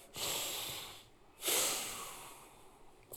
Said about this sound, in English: All right, friends, let's all get a big breath.